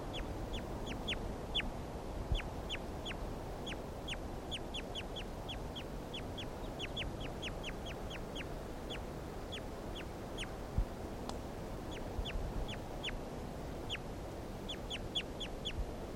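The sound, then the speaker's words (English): A bird's duck-like quacking calls, many short, sharp notes repeated in quick uneven runs throughout, fairly faint over a steady background hiss. “Start recording bird 336 again.”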